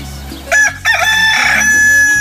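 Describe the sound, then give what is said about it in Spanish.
A rooster crows once, a loud, strained call with bright harmonics lasting over a second, over a low steady hum. “Échele, mi gallo. Y para que se motive mucho más, aquí le canta.”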